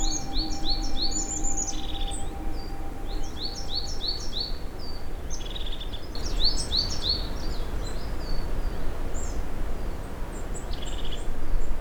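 Many birds chirp in quick, high-pitched bursts throughout, repeating over a steady, broad hiss of background noise.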